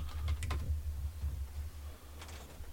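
Fingers type on a computer keyboard, a few faint, quick clicks in short bursts at the start and near the end over a low, steady hum.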